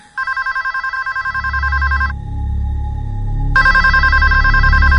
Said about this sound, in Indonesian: telepon itu berbunyi lagi